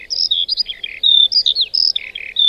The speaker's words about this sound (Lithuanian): Tai buvo dirbinė vieversio garsas.